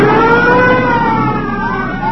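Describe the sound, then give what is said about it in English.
Police car sirens wail loud and continuous during a car chase. Several overlapping tones slide slowly in pitch, with a steady engine rumble underneath and no talk. “Police cars.”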